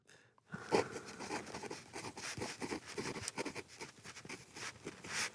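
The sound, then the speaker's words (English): A pen scratches across a pad as a sentence is printed by hand, with many short, dry strokes in an irregular patter, soft and close. “I want you to write down one sentence now in print, and then write a totally different sentence in what we call cursive or script writing.”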